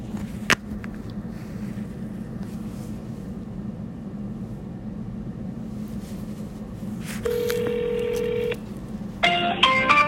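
A telephone dials a number over a low, steady line hum: a single steady tone holds for about a second, followed near the end by a short cluster of higher electronic tones.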